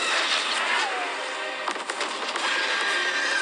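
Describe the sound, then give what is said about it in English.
Missiles fire from small pod-like attack ships during a giant-monster battle, a sustained loud hissing roar with a cluster of sharp bursts in the middle. “they fire missiles at it”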